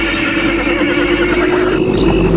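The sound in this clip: A horse whinnies as it rears up before another rider's mount, a loud, sustained call with wavering, shaking tones held across the whole short clip.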